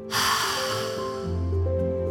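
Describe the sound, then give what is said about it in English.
A deep, slow exhale during a guided breathing exercise with hands over the heart: a soft, breathy rush of air that starts abruptly and fades gradually over a steady tonal background. “Let's put both hands over our hearts and take a deep breath in. And a deep breath out.”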